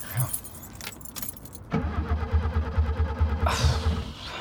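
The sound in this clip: A car engine cranks but fails to start: keys jangle briefly, then loud, rhythmic starter-motor pulses churn steadily for about two seconds without the engine catching.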